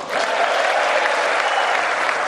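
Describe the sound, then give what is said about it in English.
Republican lawmakers applauding in the Capitol chamber: a thick, sustained roar of clapping that rises quickly at the start and then holds loud and even throughout. “And so it went, with Republicans cheering him to the rafters and Democrats sitting sullen in what felt like a campaign rally right here in the Capitol building.”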